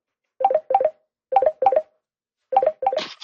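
Telephone keypad tones sound as a number is dialed: a series of short, clear beeps in quick pairs, separated by brief pauses, with a rougher, noisier tone at the end.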